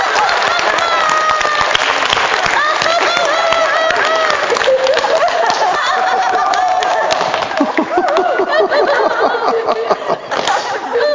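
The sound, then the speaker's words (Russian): A church audience claps for God in dense, continuous applause. The clapping is loud and sustained, with voices and a few chuckles mixed in. “Похлопаем Господа на сходу.”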